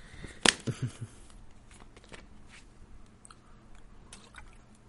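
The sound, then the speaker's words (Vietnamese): A person takes a sip of water: a sharp wet gulp, then two softer swallowing sounds close after, followed by near quiet with faint background noise. “đợi chút mình uống hớp nước đã”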